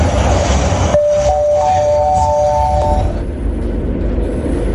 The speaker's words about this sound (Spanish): Espera, que te pongo el sonido de la próxima estación y tú lo haces.